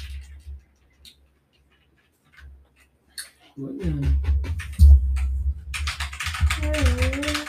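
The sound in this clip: Keys clatter on an Apex Pro TKL keyboard fitted with white switches and white keycaps. Sparse, light clicks come first, then busier clacking continues under people talking.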